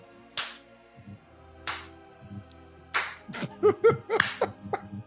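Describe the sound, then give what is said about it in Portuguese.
Slow clapping: three sharp, evenly spaced claps about a second and a quarter apart, followed by a burst of laughter with several quick, voiced peaks. “Palmas lentas pra você, tá? Você mereceu.”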